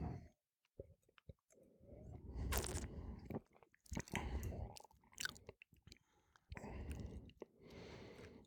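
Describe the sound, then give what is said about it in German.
Someone sips spring wine during a tasting, with a few wet, hissing slurps and small mouth sounds separated by brief silences, all quiet. “Ich nehme einen Schluck.”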